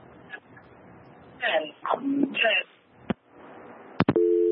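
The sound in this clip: A steady telephone tone sounds as the line to a caller in South Africa drops, starting only near the end after voices talk and a couple of sharp clicks.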